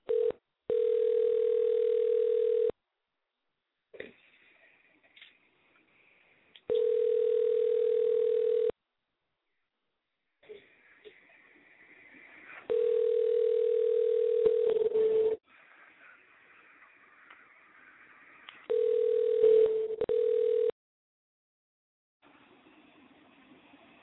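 Telephone tones on a mobile line while a call is being placed: a steady mid-pitched tone sounds in four separate bursts of about two seconds each, with long gaps of faint background noise between them.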